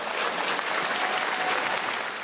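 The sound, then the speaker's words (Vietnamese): Audience applause at a live concert after a male singer's performance: many hands clapping in a dense, steady, loud wash that runs without a break. “Xin một tràng pháo tay nữa”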